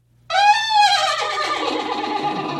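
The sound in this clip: A voice imitates a horse neigh: a single loud whinny opens on a high, quavering tone, then breaks into a rough, breathy trail that holds steady to the end, with no other sounds around it.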